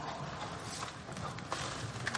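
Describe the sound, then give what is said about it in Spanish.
Walking canes struck against the floor in a dining room among seated diners, a few sharp hard knocks over steady background noise. “Golpea el suelo con los bastones.”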